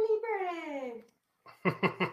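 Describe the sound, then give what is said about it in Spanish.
A baby babbling: a drawn-out, slightly falling voiced coo, then a brief pause and three quick, bouncy syllables in a row. “El bebé.”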